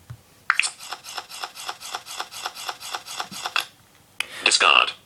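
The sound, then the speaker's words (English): Cards being dealt in a cribbage video game: a quick, even run of many short, crisp electronic clicks, then a pause and a brighter final burst. “And now we push the discard button and it'll start dealing out the cards.”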